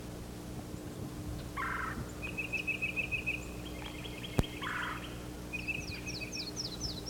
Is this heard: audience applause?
no

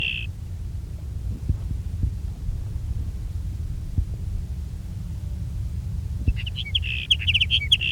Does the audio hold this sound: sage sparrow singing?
yes

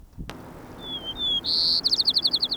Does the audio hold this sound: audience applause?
no

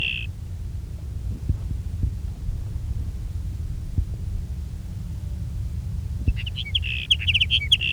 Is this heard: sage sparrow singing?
yes

